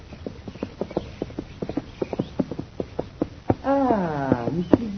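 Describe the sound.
Horse hooves clip-clop in a steady, even rhythm as a rider arrives, then a high, falling whinny rings out near the end, followed by a final hoof strike.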